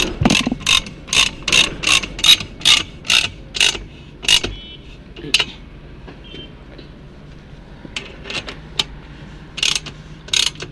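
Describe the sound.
Rapid metallic ratchet clicking from a wrench tightening a climbing hold on a wall. A quick run of many sharp clicks gives way to a stretch of fainter, sparse clicks, then another burst of clicking near the end.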